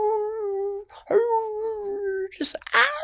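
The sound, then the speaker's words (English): A human voice imitating a bear screaming in pain after biting a porcupine: drawn-out, wavering howls that break and resume, ending in a few sharp, higher yelps. “that Mo'owe runs up, just like that Mako, that bear, and he just opens his mouth and just takes a big old bite out of that porcupine. And he's like, and just screams out,”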